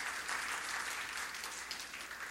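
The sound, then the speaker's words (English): An audience at a Christian church service claps in praise, producing a soft, continuous wash of many hands at a fairly quiet, even level throughout, without speech. “Can we give the Lord a clap of praise?”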